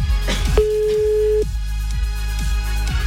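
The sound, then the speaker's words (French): A telephone ringing on an outgoing call: one steady, mid-pitched tone lasting just under a second, set against a constant background bed with faint repeating low ticks. “Ça sonne chez Estelle. C'est le principe du téléphone.”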